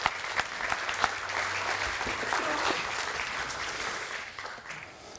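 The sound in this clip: An audience applauds to welcome a guest on stage, a dense, steady clatter of clapping that holds for several seconds and thins slightly toward the end.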